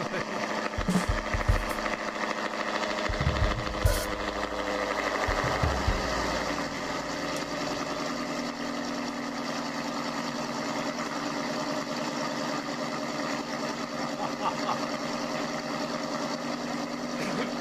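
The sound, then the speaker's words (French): A Ford Mustang's engine runs at a steady, even pitch rather than revving up, a continuous mid-range drone with some rougher knocking in the first few seconds. “Allez, envoie, accélère, bordel, ouais, accélère la Mustang. C'est une Mustang, mais il accélère pas, le mec.”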